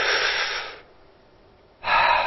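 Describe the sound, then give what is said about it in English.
Deep diaphragm breathing, an airy breath lasting under a second that fades out, then a short pause before another strong breath begins near the end; no talking. “you put your hand on your stomach and you push out with your stomach when you breathe in,”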